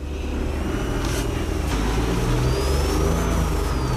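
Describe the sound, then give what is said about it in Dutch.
A small car's three-cylinder engine running: a steady, even drone with a faint high whine above it, holding at the same level throughout with no talk. “Even de motor starten. Dan hoor je het motorgeluid.”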